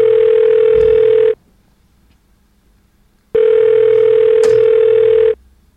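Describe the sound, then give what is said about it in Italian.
A telephone ringing tone for an unanswered call: two long, loud, steady ring tones, each about a second and a half, separated by a silent pause of about two seconds. “Non risponde nessuno. Occupato.”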